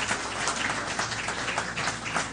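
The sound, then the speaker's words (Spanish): Congregation applause in a church, a dense, unbroken wash of clapping that stays loud and even for the whole short stretch, with no voices standing out. “Denle un aplauso una vez más al que vive y permanece.”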